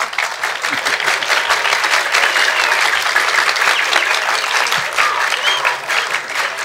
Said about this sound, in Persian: نه اگه برای احمد نیکبختیان میخواید دست بزنید، یه جوری دست بزنید که صداش تا هامبورگ بره.